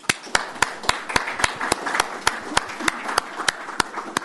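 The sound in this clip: Audience applause welcoming speakers at a Brookings event: a steady wash of crowd clapping, with one sharp clap standing out at a regular, brisk beat throughout.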